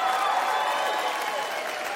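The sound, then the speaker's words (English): Audience applause at a comedy show: dense, steady clapping that holds at an even level for the whole stretch, with voices mixed into the crowd noise. “Clap it up, people, for the gay guys coming out tonight.”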